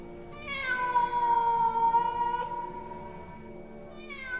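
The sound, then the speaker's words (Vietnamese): A black cat meows: one long, drawn-out, clear meow, followed near the end by the start of a second cry. The cries stand alone against a quiet background. “có tiếng ngoao ngoao cất lên. Một con mèo toàn thân đen óng đủng đỉnh từ trong phòng đi ra”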